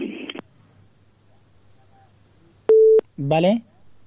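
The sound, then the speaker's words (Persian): A telephone busy tone sounds after a caller's line is cut off during a radio call-in, one short steady mid-pitched beep standing alone, followed by a brief burst of voice. “بله شنونده عزیز، تماس شنونده ما قطع شد”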